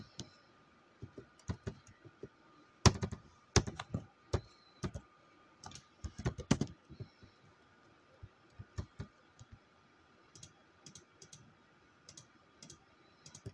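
Someone types on a computer keyboard in faint, irregular keystrokes. The clicks come in scattered bursts and clusters, with many clicks and short pauses between them.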